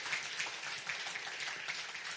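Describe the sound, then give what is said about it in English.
Congregation clapping in praise at a church service: a dense, even wash of many hands that stays fairly soft and steady throughout, with no voices over it. “Let's all, if you want to clap, give the Lord a clap of praise.”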